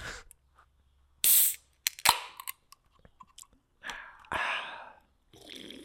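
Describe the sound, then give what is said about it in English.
A can of Spindrift sparkling water is cracked open: a short hiss, a sharp metallic click, then a few faint fizzing bursts separated by quiet. “I have to crack open my Spindrift for this.”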